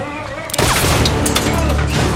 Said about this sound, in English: Bullets ricochet off of the walls as they both cling to the weapon.